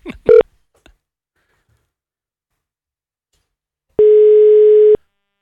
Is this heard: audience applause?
no